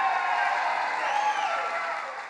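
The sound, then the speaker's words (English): Crowd applause at a Bikers for Trump rally: dense, even clapping with cheering voices mixed in, easing slightly toward the end. “As disturbing as the comment itself, the nodding heads and that applause from the crowd”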